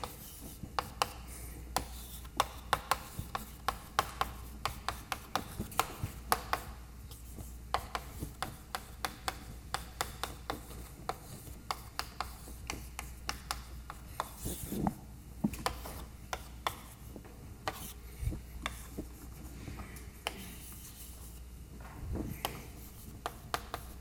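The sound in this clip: Writing on a board during a lecture: many short, faint scratching strokes in an irregular rhythm continue for the whole stretch, with no talk over them.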